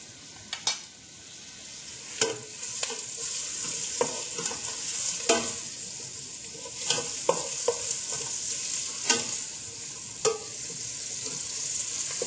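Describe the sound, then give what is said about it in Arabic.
Onions frying in oil in a pot over very high heat give a steady, loud sizzling hiss, broken by a few sharp scraping clinks as they are stirred. “مشان يتقلى هيدا البصل منحط شوية زيت.”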